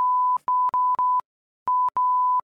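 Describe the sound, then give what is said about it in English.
Censorship bleep covering a spoken phone number: a steady, mid-pitched electronic tone in a run of short bursts with brief breaks and one longer gap in the middle, loud and alone. “so that'll all be bleeped, right?”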